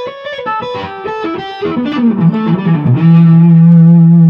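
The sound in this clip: Electric guitar through high-gain distortion, with the volume rolled back to around 7, plays a quick run of notes that steps lower before settling into one long, loud, sustained low note.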